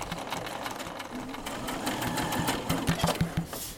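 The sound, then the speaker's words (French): A sewing machine stitches cotton fabric for a sensory cushion, with a steady, fast mechanical whirr and rattle. Near the end it breaks into a run of distinct, rapid, regular thumps. “Cet après-midi, on va faire des coussins sensoriels avec la machine à coudre à l'aide de tissus et de graines de différentes tailles.”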